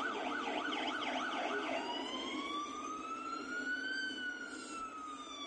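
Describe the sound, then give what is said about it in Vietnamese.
An ambulance siren blares loudly and without pause, opening with a fast warbling yelp for a couple of seconds, then switching to a slower, drawn-out wail that climbs and then eases slightly. “Sau đó thì cửa xe cấp cứu đã đóng lại, tiếng còi dồn dập lại vang lên.”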